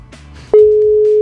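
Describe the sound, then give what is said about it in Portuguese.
An outgoing telephone call rings and goes unanswered: after a faint murmur, one loud, steady ringing tone starts abruptly and holds unchanged to the end. “Bora, tá ligando. Vamos ver. Vou deixar chamar mais duas vezes.”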